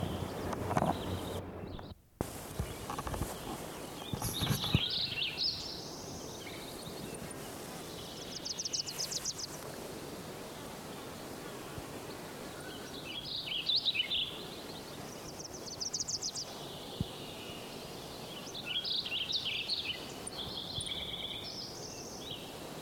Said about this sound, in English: Wilson's Warbler